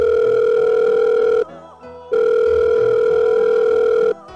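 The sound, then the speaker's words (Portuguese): Ringing tone of an outgoing Telegram call: two long, steady electronic tones separated by a short pause, loud and clear with no voices. “O meu mestre ainda tá trancado pela quarentena lá num abismo, então vai ter que ser via Telegram mesmo. Deixa eu ligar aqui para ele.”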